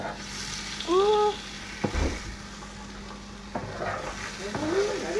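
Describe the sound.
Food frying and sizzling in a pan while a meal is cooked. A steady hiss is broken by a few sharp clattering knocks of stirring.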